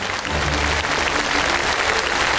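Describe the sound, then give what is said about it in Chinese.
Audience applause greets a Peking opera artist arriving on a stage show: a dense, steady wash of clapping that holds loud and even for the whole stretch. “让我们掌声欢迎京剧名家朱世慧老师”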